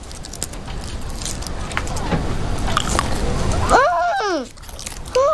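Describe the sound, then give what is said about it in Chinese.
Chocolate being chewed, a run of crackly, crunchy mouth noises, followed near the end by a voice speaking briefly. “这叫巧克力，一种很好吃的糖，我尝尝。”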